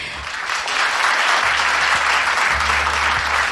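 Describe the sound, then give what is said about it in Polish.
Audience applause at a live concert with musicians: a thick, continuous roar of many clapping hands that swells within the first second, then stays loud and steady to the end. “Wielkie brawa.”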